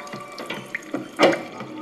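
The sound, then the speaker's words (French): Spirit flows from two brandy stills running at the same time. A thin trickle of liquid is broken by intermittent mechanical clanks and knocks, and the loudest knock comes near the end. “Comme il y a 2 alambics qui coulent en même temps, ils goûtent l'eau de vie du voisin à côté.”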